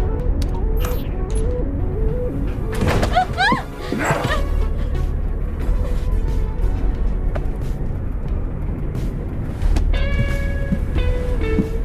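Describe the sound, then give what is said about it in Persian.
A running train gives a steady low rumble throughout, with a dog barking, yipping and whimpering loudly over it at intervals. “قربان من وارد شدم. سیستم قطار رو خاموش میکنم.”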